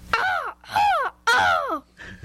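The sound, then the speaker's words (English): A person imitates a crow's caw with the voice: three loud, harsh calls that fall in pitch, then a shorter, softer fourth. There is no other sound. “I know a crow. Can you do it?”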